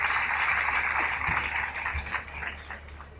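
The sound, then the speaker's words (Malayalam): Audience applause welcoming a pastor at a church family meeting: a dense, steady wash of clapping hands that holds evenly, then thins and softens toward the end. “കരങ്ങൾ അടിച്ച് നമുക്ക് അദ്ദേഹത്തെ സ്വാഗതം”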